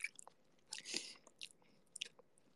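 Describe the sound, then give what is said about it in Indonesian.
Close, quiet eating of an egg with moist chewing, biting and slurping. The sounds come in a few short clusters separated by pauses. “Aku lagi seruput ini telur. Nyam nyam nyam. Telur.”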